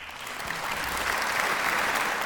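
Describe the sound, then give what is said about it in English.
An applause sound effect plays as a dense, steady crowd clapping that holds at an even level for its whole length. “Cue the applause music, Thomas.”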